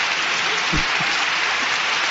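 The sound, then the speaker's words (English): Applause from an audience: a dense, steady wash of many hands clapping at once, with no single claps standing out, holding at an even level throughout. “Keep clapping.”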